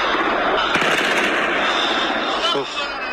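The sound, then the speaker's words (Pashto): Kalashnikov rifle gunfire aimed at the Buddha statues in Bamiyan, a few sharp cracks standing out against a dense, loud wash of noise, with voices present throughout. “بوتای بامیان میبینین که طالبان سر بوتا بازم فیر داره، فیر میکنن سر بوتا.”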